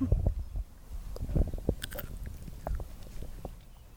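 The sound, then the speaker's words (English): Someone bites into a tiny baby cucumber and chews it, making soft, moist crunches and clicks scattered irregularly over a few seconds, fairly faint. “Yeah, but the little tiny baby fruit are pretty good, so you can eat that little guy. I will try it.”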